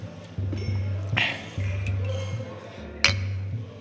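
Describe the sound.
Glasses clink in a toast: two bright, brief chimes about two seconds apart over a low, steady hum.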